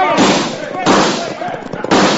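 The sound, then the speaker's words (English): Gunfire in a Western radio drama about a robbery of a gold shipment: three loud, sharp blasts, each followed by a harsh, ringing tail, come roughly one second apart. “And then they swooped down, guns blazing.”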